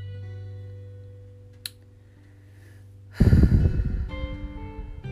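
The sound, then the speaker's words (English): A deep breath comes as a loud, long breathy rush that cuts in after a quiet stretch holding a low steady hum and one brief click. “That deep breath right there. It's been many a times that I had to take deep breaths just to release some of that pain”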